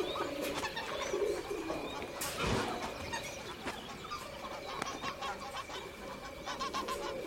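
Birds coo by aviaries, a steady overlapping chorus of soft, low calls with other clucking bird sounds mixed in. The calls run continuously and fairly loud throughout.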